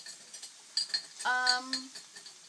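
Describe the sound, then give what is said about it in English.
A utensil scrapes and clatters against a Teflon pan while flipping browned food being cooked with apple juice. A few sharp metallic clinks come first, then a louder scrape with a ringing tone. No sizzle stands out. “I'm using a Teflon pan right now, and just trying not to go down to the bottom.”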